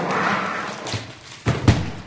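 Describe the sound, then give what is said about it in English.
A foam core folding wall is set up: soft rustling and shuffling of light panels, then two dull, hollow thumps in quick succession near the end as the wall settles into place. “Wow, you just put that up. It's a folding wall.”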